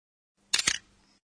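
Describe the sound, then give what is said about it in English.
Camera shutter click, a crisp double mechanical snap: two quick clicks in rapid succession, fairly faint and heard alone against silence. “That's the sound of a camera shutter, I think.”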